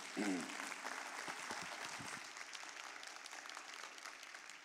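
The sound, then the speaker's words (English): An audience applauds to welcome a speaker onto the stage, giving a steady, even patter of many hands clapping together that stays faint throughout and holds without a break. “Let's give him a big hand.”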